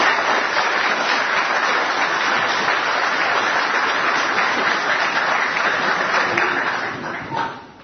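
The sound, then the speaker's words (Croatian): Enthusiastic audience applause greeting the author, a professor, at a book presentation in a hall, a loud, sustained wash of clapping lasting about seven seconds before tapering off at the end. “Molim vas velikim aplauzom pozdravite autora profesora Mila Cicmila.”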